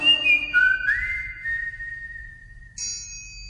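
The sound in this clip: Whistling: a single person whistles clear, sustained notes that slide smoothly between pitches, with a soft low rumble underneath.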